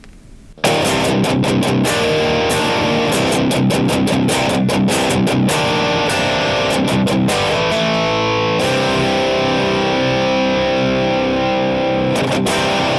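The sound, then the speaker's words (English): High-gain distorted electric guitar from a Boss DF2 Distortion Feedbacker into a Marshall Silver Jubilee with Vintage 30 speakers, via a Boss IR200 in stereo. A loud, tight riff with choppy muted chugs gives way to a long, ringing sustained chord. “which is the Boss DF2, the distortion feedbacker, into a Marshall Silver Jubilee loaded with vintage 30s. Lots of high gain goodness.”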